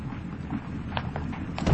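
Faint clip-clopping hooves of an arriving horse-drawn carriage: a few soft, irregular clops over a low rumble, growing slightly louder toward the end.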